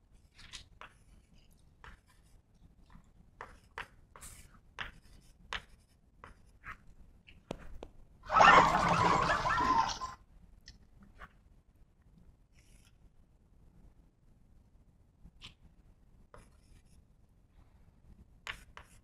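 Writing during a lecture: many faint, scattered scratches and taps, with one louder rubbing stroke of about two seconds midway. No one speaks.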